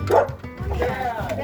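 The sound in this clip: A dog barks at the door of a mobile home as visitors arrive, giving a few short, excited woofs and yips. People talk and greet each other over the barking.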